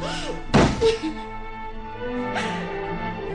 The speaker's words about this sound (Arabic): هديها قفل الباب ورا مرة تانية